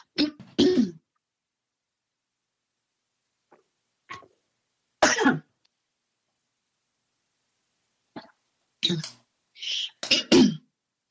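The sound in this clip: Coughing and throat clearing after tea goes down the wrong way, in scattered rough bursts: two quick coughs, then a few single hacks and clears separated by silent pauses, ending in a tight cluster of louder coughs.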